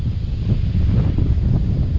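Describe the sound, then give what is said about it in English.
Wind blowing across an outdoor scene as a steady, loud low rumble and buffeting roar that fills the whole clip without pause, with no voices. “pray this wind stops is the first thing.”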